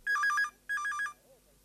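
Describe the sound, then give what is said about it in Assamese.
A telephone rings in two bursts of bright, warbling electronic trill that alternates between two high tones, with a short pause between the bursts and quiet afterward. “কোনোবাই phone কৰিছে”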